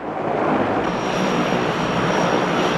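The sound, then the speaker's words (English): Steady engine drone of an airplane taxiing through thick fog, a dense, unbroken rumbling roar at constant loudness with a faint thin whine joining partway through. “The plane taxis through thick fog.”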